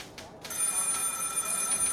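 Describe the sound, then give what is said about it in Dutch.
Telephone bell ringing in an office in Amsterdam, a continuous bright metallic ring that starts abruptly after a brief faint burst and holds steadily to the end. “Op het kantoor van de Joodse Raad in Amsterdam gaat de telefoon.”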